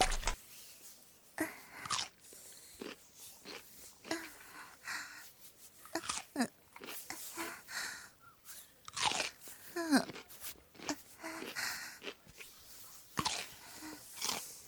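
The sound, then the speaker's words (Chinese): Someone bites and chews cucumber with many crisp, wet crunches in an irregular rhythm, loud against a quiet background. “黄瓜可以吃了哦。”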